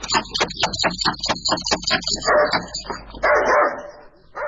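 A dog barks in a rapid run of many sharp, loud barks, followed by rougher, noisier bursts of sound. No voices are heard.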